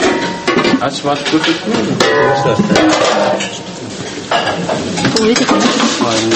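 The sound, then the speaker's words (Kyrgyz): Dishes and cutlery clattering in an army canteen kitchen, a busy, continuous jumble of clinks, scraping and pot sounds with voices mixed in throughout. “Аскерлер менен кошо биз дагы ашканага баш бактык.”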